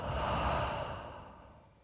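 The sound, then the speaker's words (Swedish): A single soft, airy breath during a guided exercise of breathing in through the nose and out through the mouth. The breathy rush swells briefly, then fades away quietly, with no talk over it. “Kan du prova andas in genom näsan? Ut med munnen.”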